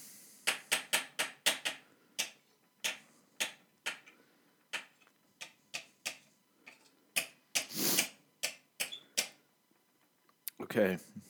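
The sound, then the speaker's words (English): Scissors cutting string, heard as many sharp, dry snips and clicks in an irregular rhythm, some quick runs and some spaced out, with brief voices and handling noise mixed in. “I need something to cut it with. Oh, well, no, that's string. Hold on. Will scissors do? Yes. Okay, cool. We got some scissors”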